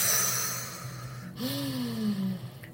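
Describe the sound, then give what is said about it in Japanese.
A deep abdominal breath is pushed out slowly through the mouth as one long, soft, breathy rush of air that gradually fades. “ふーという風に結構しっかり深呼吸、腹式呼吸をしています。”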